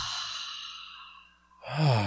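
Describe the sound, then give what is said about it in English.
A deep breath: a long, airy rush of breath that slowly fades over about a second and a half, followed by a short voiced sigh. “Take a super deep breath. Breathe in.”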